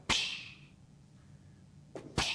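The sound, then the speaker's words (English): A voice imitates a flaming arrow being quenched as it strikes a shield: a sharp hissing burst that fades away, followed near the end by a couple more short hisses. “That's fire getting quenched, all right? And it would put the fire out.”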